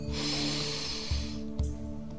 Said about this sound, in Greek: εισπνέουμε από τη μύτη και βγάζουμε τον αέρα από το στόμα. Εισπνοή βαθιά, πάμε.